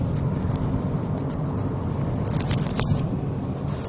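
Steady low rumble and road hiss from a car being driven home, with a few brief scraping noises over the continuous drone, without talk.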